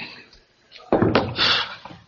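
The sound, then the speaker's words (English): A door being handled in an army office: a sharp bang followed by a short stretch of rattling, scraping noise, moderately loud, then fading out. “Door.”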